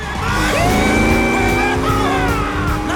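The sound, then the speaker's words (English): A car engine roars with squealing tires as the car swerves and is forced into a spin, the sound loud and continuous for about three seconds, with whining tonal lines over a rumbling base. “Carter zooms off. He swerves in front of Edward and forces him into a spin.”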